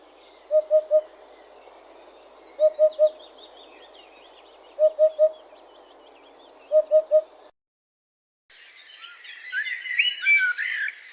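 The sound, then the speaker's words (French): Eurasian hoopoe calling in four evenly spaced triplets of soft, hollow, low 'oop-oop-oop' notes over faint background. After a short silence, brighter higher-pitched twittering begins. “La huppe fasciée.”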